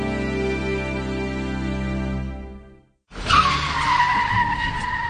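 Car tyres screech as a vehicle turns close to a pedestrian crossing the road. A steady droning tone fades to a short silence, then a loud, wavering squeal starts sharply and holds to the end.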